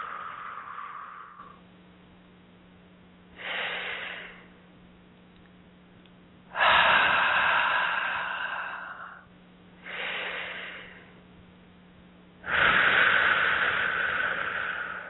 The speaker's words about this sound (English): Nice deep breaths in through the nose and out through the mouth.